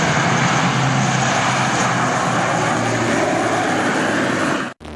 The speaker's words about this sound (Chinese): 随着起飞指令下达，运输机急速升空，飞向任务空域。